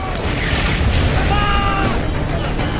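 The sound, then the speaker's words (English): German artillery shells are fired in a massive bombardment, making a dense, loud and unbroken roar of booms, with a brief whining tone partway through. “Three and a half million German shells are fired in just 5 hours.”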